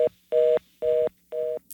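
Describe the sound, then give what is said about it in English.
Touch-tone telephone key presses sound as steady dual-pitched beeps: a brief clipped tone at the start, then three longer, evenly spaced tones with short silences between them, with a faint low hum underneath. “If you have a touch tone phone, press one now.”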